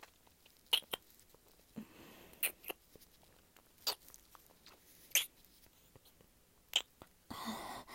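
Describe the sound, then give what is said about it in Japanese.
Wet licking and sucking on fingers, heard as several sharp, moist smacks spaced irregularly over a quiet, breathy background, ending in a short burst of rustling noise. “すごいよ指。舐めちゃおうかな。”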